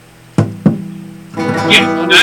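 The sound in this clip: Two sharp, hollow knocks come from a hand striking the body of an acoustic guitar, a flamenco-style golpe tap near the bracing. Ringing string tones follow and sustain to the end.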